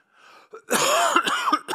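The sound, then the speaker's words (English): Several coughs and throat-clearing sounds during a sermon: one rough, heavy burst followed by a few shorter, sharp coughs in quick succession, loud and alone without speech. “Wow, a lot of coughs today.”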